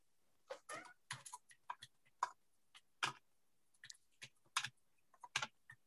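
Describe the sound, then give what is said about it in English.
Buttons clicked and keys typed on a computer keyboard: irregular bursts of sharp, faint clicks and keystrokes, some in quick clusters, heard alone without talk. “hearing me go and then click a bunch of buttons and then start typing away”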